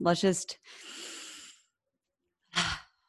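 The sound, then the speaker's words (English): Brief speech gives way to one long, airy inhale lasting about a second as a group breath is invited. After a pause, a short, breathy exhale follows. “Can we all just collectively take a breath together?”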